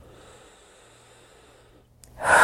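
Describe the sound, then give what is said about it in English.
A big deep breath during a guided tapping exercise for stress: near silence for a couple of seconds, then a loud, rushing inhale that swells at the very end. “Big deep breath.”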